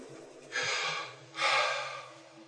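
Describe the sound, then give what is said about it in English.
A voice imitates how the divine name YHWH is said, producing two long breathy exhales, one after another, each swelling and then fading, with no words spoken. “She said, it's the breath. She says, when God put his name in creation, he put it in the breath.”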